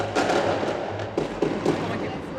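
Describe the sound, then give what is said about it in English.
Fireworks going off in a neighborhood where a police sweep is underway, heard as a few dull, muffled bursts and crackles rising out of a steady, noisy background. “Turns out it's not shooting, it's fireworks.”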